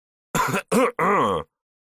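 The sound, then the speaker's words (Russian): Three short, throaty coughs after choking on air, the first two brief and the last a little longer, with nothing else behind them. “подавившись воздухом, закашлялся”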